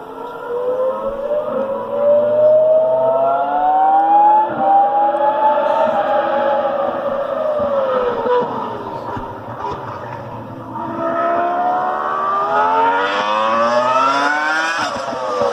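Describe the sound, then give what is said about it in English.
A Ferrari V10 race car screams around the course, its loud, high engine whine running continuously with no talk, pitch climbing steadily and then dropping abruptly several times as it revs through the gears. “Here is 15 seconds of a Ferrari V10 going around the course that I just couldn't hold any longer.”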